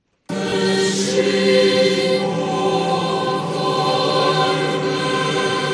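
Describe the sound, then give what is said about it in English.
Choir singing during Easter Mass at the Vatican in Rome, a sustained, full chorus of blended voices holding rich harmonic chords steadily and loudly for several seconds, with no speech over it. “That's the sound of the Vatican Choir during Easter services Sunday in Rome.”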